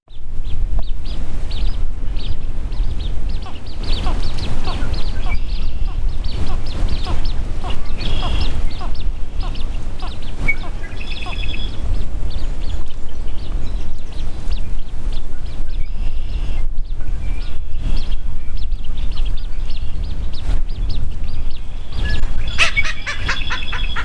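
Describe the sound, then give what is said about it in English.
Blue-winged teal calls, a duck, repeat many times in short bursts over a dense, steady wash of other outdoor bird and background noise, loud throughout with no voices. “Blue-winged teal.”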